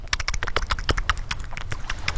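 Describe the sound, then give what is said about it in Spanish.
Wet flip-flops slapping on damp ground with hurried steps: a fast, uneven run of many sharp, smacking slaps, fairly loud and continuous, with no pauses. “Son las chanclas mojadas.”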